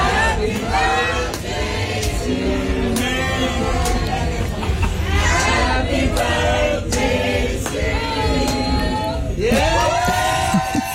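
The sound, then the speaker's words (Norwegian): A crowd of fans at a live concert in Singapore sings the birthday song together. The voices form a steady loud mass, with sharp claps or shouts scattered throughout and a rising whoop near the end. “Og der ble hun da overrasket av fans som sang bursdagssangen.”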